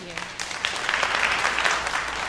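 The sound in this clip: Applause from a live studio audience on the other side of a glass wall, a dense, steady patter of clapping that builds slightly and holds throughout.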